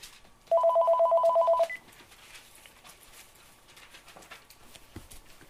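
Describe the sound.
A telephone rings during a talk as a call from a hospital comes in: a single steady electronic tone, about a second long, over a quiet background.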